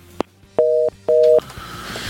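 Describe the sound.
A telephone busy tone sounds after a dropped call on a radio phone-in line. A click comes first, then two even, steady beeps of equal pitch with a short gap between them, and a low background hum afterward.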